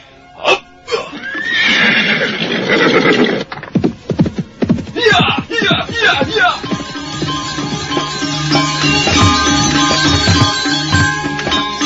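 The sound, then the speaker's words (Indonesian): A horse whinnies loudly and at length, then a quick run of pounding hoofbeats follows as it gallops hard along a road at the edge of a small forest, with a steady sustained sound continuing afterward. “Sementara itu, Ayu Wandira terus memacu kudanya melintasi tepian hutan kecil. Kuda itu berlari kencang bagaikan terbang di atas jalanan”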